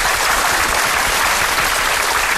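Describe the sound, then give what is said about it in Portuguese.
Loud, dense applause for a guest after an interview about the guitar, a thick, even wash of many clapping hands that holds steady from start to finish with no voices. “Palmas para ele!”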